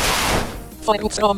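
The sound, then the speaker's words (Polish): A video game's super-effective hit sound for a ghost-type surprise attack striking a sound-type creature: a loud, noisy burst that fades, then a few short, bright tonal blips. “To jest dźwięk taki specjalny, to jest właśnie dźwięk super efektywności.”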